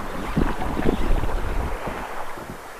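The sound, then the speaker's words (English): Wind buffets the microphone of someone standing in the water while fishing, mixed with the rustle of their clothes: a continuous low rumbling roar with soft scratchy rustling that eases slightly toward the end, with no talk. “Hopefully the noise from the wind and my clothes won't ruin everything.”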